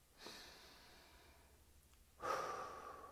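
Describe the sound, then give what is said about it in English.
Slow, soft breathing during a meditation, with two long breaths separated by a short pause, the second louder and more airy than the first. “connect with the breath, breathing in and breathing out.”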